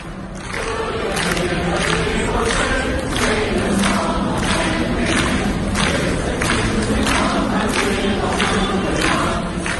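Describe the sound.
A large crowd of people sings together, loud and continuous, with a steady rhythmic pulse running through the song.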